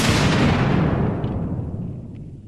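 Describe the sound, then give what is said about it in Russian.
A far-off explosion booms once, a loud, broad rumble that fades slowly over about two seconds, with no voices. “Где-то далеко бухнул взрыв.”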